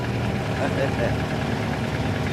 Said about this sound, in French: ce moteur devrait permettre à la Cosworth d'atteindre les 225 km/h. S'il veut bien démarrer, évidemment. Au quart de tour.